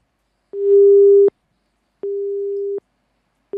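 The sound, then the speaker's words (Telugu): A telephone busy tone sounds after a phone-in call is cut off: a steady low-pitched beep repeats in even on-off pulses, two full tones and the start of a third, alone with no voices. “మరి call cut అయిపోయింది.”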